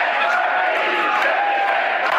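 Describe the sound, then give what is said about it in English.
A crowd chants at Parti Québécois headquarters in Quebec on election night. Many voices merge into a loud, steady roar that holds without a break. “Quebec, a country, chanted the crowd at PQ headquarters.”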